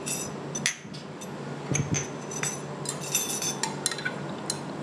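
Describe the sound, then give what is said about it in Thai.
Clinking and scraping of a utensil stirring part one of a pet breath-freshening spray formula in a container as an ingredient is added, with many light metallic taps and knocks of uneven rhythm throughout. “อันนี้ออร์แกนโทอินนะคะเราก็จะใส่ลงไปเลยนะเดี๋ยวก็คนก่อนนะคะคนที่ส่วนที่หนึ่งเข้าอันก่อน”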